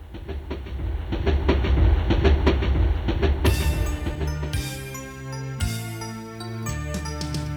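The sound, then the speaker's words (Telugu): An approaching train rumbles loudly with rapid rhythmic clacking from the wheels, then shifts to a brighter sound with sustained tonal ringing layered over the rolling noise. “బండి వస్తోంది పక్కకి పక్కకి జరగండి, ఆగినాక ఎక్కండి”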